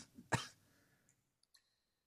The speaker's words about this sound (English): Ow. Stupid cough.